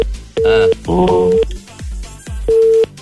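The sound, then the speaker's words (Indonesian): Disconnected-line tone after a telephone call is cut off: three steady, mid-pitched beeps separated by gaps, with a voice talking over the first two. “Terputus. Boleh telefon balik lagi. Terputus tadi.”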